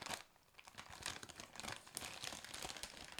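Crinkling and tearing of a bag of white truffle potato chips from Spain, a busy, continuous crackle of plastic with sharp rips throughout, fairly loud and without talk.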